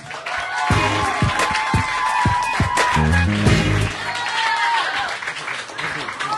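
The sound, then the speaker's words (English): Applause and cheering from a comedy show audience welcoming a comedian on stage, a dense, steady wash of clapping that holds loudly throughout, with some low tones underneath. “Please put your hands together and welcome to the carpet, Abbas Idris.”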